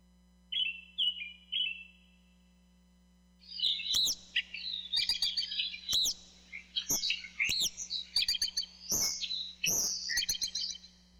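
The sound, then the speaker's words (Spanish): Birds singing: a few short, high chirps at the start, then a dense, loud run of bright twittering song with many quick notes. No voices. “El canto de los pájaros ocupa una parte variable en la atención auditiva del señor Palomar.”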